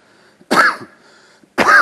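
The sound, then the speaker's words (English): Two harsh, loud coughs, about a second apart, each a short raspy burst with quiet between them. “Excuse me. Thank God. Thank God for the ability to cough.”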